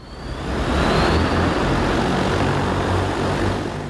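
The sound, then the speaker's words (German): Steady whirring roar of an Ehang electric passenger air taxi flying during a test in Guangzhou. It swells up over the first half second, then holds loud and even with no voices. “Es ist der ganze Stolz des chinesischen Unternehmens Ehang, das eigene Flugtaxi.”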